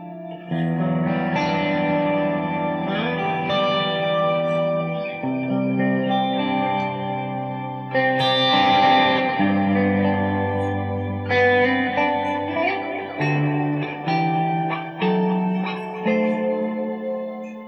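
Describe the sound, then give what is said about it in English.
Electric guitar played through a chorus effect pedal, with a shimmering, twinkly tone over a run of chords and single notes. The sustained notes ring with noticeable reverb and echo-like wash, and no one speaks. “Chorus sound there. Just very twinkly in the background.”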